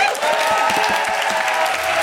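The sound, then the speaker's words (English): Applause from an audience for a group of performers, loud, dense clapping that stays steady throughout. “Big round of applause for Amrit and the boys.”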